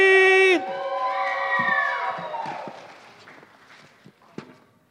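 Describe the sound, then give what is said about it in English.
An audience cheers and shouts to welcome a guest speaker to the stage. A loud, sustained tone opens, then a broad crowd roar that slowly fades, with a few sharp knocks near the end. “Can you guys give a huge HSM welcome to Bailey?”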